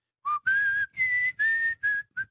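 A person whistles a short tune alone: six clear, pure notes of varying length and pitch, most of them held briefly, with short pauses between them and the last note clipped short.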